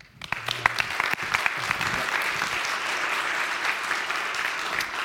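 A church audience applauds a guest preacher: a few scattered claps quickly swell into full, dense applause that holds steady to the end.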